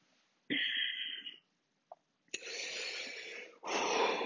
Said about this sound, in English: Breathing. Do it with me.